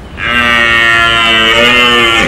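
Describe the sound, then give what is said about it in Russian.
A single long, loud moo from a fawn, a steady harmonic bellow lasting about two seconds with nothing else around it, its pitch dipping slightly at the very end. “Вместо крика из уст олененка вырвалось мычание.”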